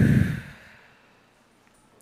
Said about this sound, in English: Breathe in and out.